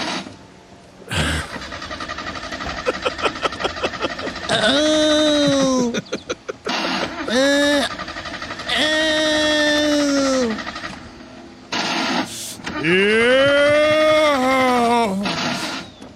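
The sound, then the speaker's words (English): Parked car engine cranking, with a quick run of rhythmic starter pulses, then catching and revving in a few long surges that swell and sag in pitch between quieter idling gaps. “You're parked, okay. And you run the engine, and then it starts vibrating, and I guess it shakes your butthole. I'm not certain, but if you want to hear, here are just some of the erotic sounds of cranking.”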